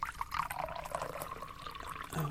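Water poured into a glass: a faint, steady trickling stream that runs unbroken for a couple of seconds.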